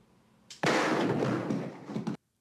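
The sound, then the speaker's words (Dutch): A voice imitates a pistol gunshot with a soft lead-in, then one long, harsh, hissing burst that stays loud before stopping abruptly. “het klinkt heel gek, het is heel gek in deze podcast, het schotgeluid van Sonny's pistool.”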